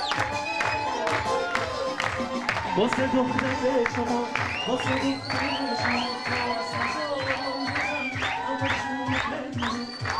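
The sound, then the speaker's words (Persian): Wedding guests clap steadily in a quick, even rhythm while the couple sits, and the lively claps run over continuous music and crowd noise. “تهمینه و فرشاد روی صندلی نشستن و مهمونا دست میزنن.”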